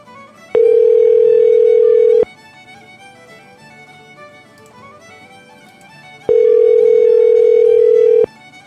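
Ringback tone of an outgoing telephone call that goes unanswered: two long, steady, loud tones separated by a pause of several seconds, with faint background hiss between them.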